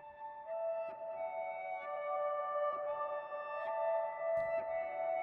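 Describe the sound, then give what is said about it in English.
A guitar part reversed and pitched up several octaves becomes soft, shimmering high tones that swell and sustain in gentle overlapping layers, quiet and alone. “I took that same original guitar part. I reversed the whole thing. I flipped it around. I literally reversed it. And then I pitched it up a bunch of octaves. And it started to sound like this.”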